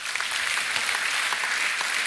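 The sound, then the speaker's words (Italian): Audience applause welcoming a guest essayist at a panel discussion: a thick, continuous wash of many hands clapping, bright and even in loudness from start to finish. “vi chiedo di salutarlo con un applauso, è Christopher Caldwell”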